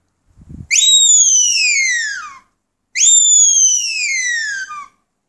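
High-pitched dog-training whistle blown twice, each long blast starting sharply and sliding downward in pitch, with a short gap between them and a faint thump just before the first.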